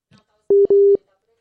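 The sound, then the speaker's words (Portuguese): Telephone tones sound while a dropped call is being redialed: a short, steady mid-pitched beep, then a longer beep of the same pitch. A faint, brief vocal sound comes just before them. “caiu a conexão. Estamos tentando ligar de novo”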